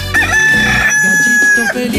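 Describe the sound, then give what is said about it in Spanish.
A rooster crows one long, loud, drawn-out call that holds a steady high pitch before trailing off, with other sound continuing underneath. “Así le canta de bonito, de chulo, de pechocho, mi gallito, ¿eh? Bien guapo, mi gallo, ¿eh?”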